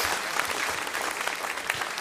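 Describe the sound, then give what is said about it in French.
Steady applause from an audience at a Sunday church service, clapping for the communications team. The clapping is dense and even, with no gaps, and holds at a constant moderate level throughout. “On peut applaudir l'équipe Com là, qui a bien bossé là.”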